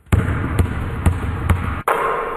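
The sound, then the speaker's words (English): A basketball is dribbled four times in a steady rhythm, each bounce a sharp thump, then the shot drops cleanly through the net with a softer, sustained swish. “Made that one. Nice job. Yeah, yeah. Nice shot. Nothing but net.”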